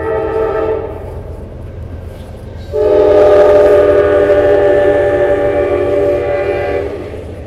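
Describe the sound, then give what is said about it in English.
A passing train roars by, its loud, sustained horn sounding in steady tonal blasts over rumbling rail noise. The sound swells sharply partway through and stays loud to the end. “Sorry about the train. I'm covering my ears.”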